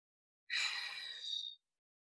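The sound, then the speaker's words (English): A single soft, airy breath lasting about a second, taken during a guided exercise of inhaling through the nose and exhaling out of the mouth; quiet and heard alone. “Let's just take a couple breaths together, inhaling through the nose, exhaling out of the mouth.”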